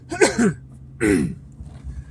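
Throat clearing from a person with something caught in the throat: two short, rough, voiced bursts separated by a brief pause, moderately loud and alone without talk.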